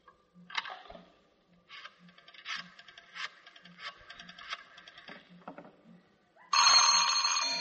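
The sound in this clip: Telephone being dialed, heard as a stretch of rattling, clicking mechanical whirs. Near the end, a loud, sustained telephone bell starts ringing.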